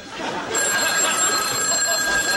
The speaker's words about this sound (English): Seem like you'd wait till I answer the phone.